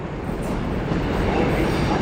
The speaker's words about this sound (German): Ich komme am Bahnhof in Mülheim an.